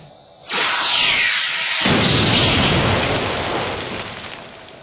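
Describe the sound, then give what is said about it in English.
A Star Trek hand phaser fires with an abrupt, loud, rushing hiss of energy that surges, holds for several seconds and then slowly tapers away. “I'm afraid that was me, Worf. I was checking to see if the phasers still operate.”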